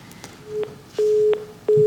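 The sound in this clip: Disconnect tones from a dropped call on a live TV call-in phone line: steady, mid-pitched beeps in three pulses, each opened by a click and each lasting longer than the last.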